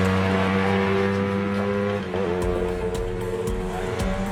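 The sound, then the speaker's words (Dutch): Screeching car tyres with a revving engine, a loud, continuous droning whine whose pitch wavers and shifts partway through. “Scheurende banden.”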